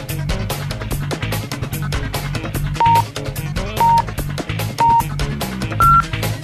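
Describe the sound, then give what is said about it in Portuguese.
A radio station's time signal marks seven o'clock with four short, pure beeps about a second apart, the last one higher in pitch, standing out over busy background music. “6 horas 59 minutos, em seguidinho o sinal da Gaúcha marcando 7 horas”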